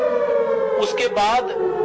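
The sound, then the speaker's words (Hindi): Air raid warning siren holding a sustained, wailing tone that dips slightly in pitch. A few brief noisy bursts break in partway through. “इसको हम play करते हैं लगभग 5 minute तक, ताकि लोगों को सूचना हो जाए कि एयर रेड का अलर्ट है और वो अपने अपने घरों में चले जाएं”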